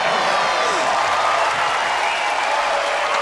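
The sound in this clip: Audience applause after a song on a televised talent competition, with confetti cannons going off: a loud, unbroken wash of clapping that stays dense and even from start to finish.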